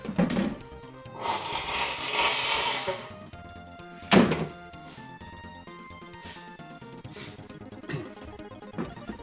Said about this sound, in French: Je vais me remoucher, excusez.